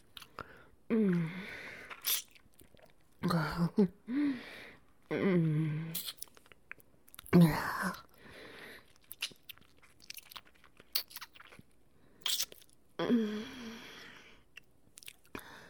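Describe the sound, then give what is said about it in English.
Biting and wet chewing as someone feeds on another person's blood: many short, moist, crunchy bursts come and go with pauses. Breathy voiced murmurs and sighs rise between the chewing. “Another little bite wouldn't hurt, would it?”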